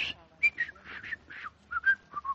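Feeble whistling through crooked, bent front teeth: many short, breathy puffs carry thin tonal notes that break off unevenly, sounding airy and weak rather than clear.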